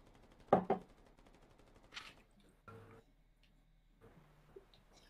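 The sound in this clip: Gunfire in a video game: a few quiet, sharp bursts of shots spaced apart by gaps, the first the strongest, with soft ticking between them.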